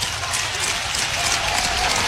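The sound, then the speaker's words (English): A baseball crowd at an Iowa game rising into a cheer, a broad, steady roar of many voices that holds at a fairly loud, even level with a smattering of clapping. “Crowd comes to life here.”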